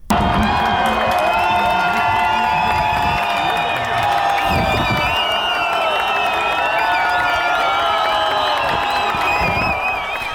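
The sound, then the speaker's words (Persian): A crowd of victims' families cheers as a verdict is announced in the trial of an official over executions: continuous loud cheering with shouts, whoops and some clapping, sustained for the whole stretch. “این صدای خانواده های قربانیان این اعدام ها در زمان اعلام حکم است.”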